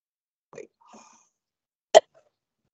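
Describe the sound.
A single short, sharp cough or throat clearing from a tickle in the throat, loud and abrupt, preceded by a couple of faint, soft throat or breath sounds.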